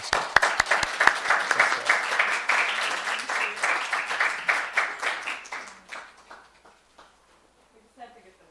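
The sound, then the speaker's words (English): Audience applause at an award presentation, opening with a few sharp separate claps that swell into dense, rhythmic clapping, then thinning out and fading to near silence, with a few stray claps near the end. “So please, let's give them a round of applause.”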